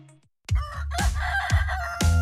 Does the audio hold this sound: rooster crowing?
yes